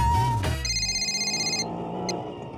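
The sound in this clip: A phone rings over speakerphone during a call: one bright, buzzy electronic ring burst lasting about a second, followed by a faint murmur and a brief high blip.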